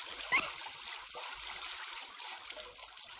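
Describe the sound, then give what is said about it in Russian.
Water trickles and splatters in a wooden plank shower cabin as someone spits out a mouthful, with a short splash early on over a faint, steady dribble; no one speaks. “принимает душ в дощатой кабинке. Выплевывает воду.”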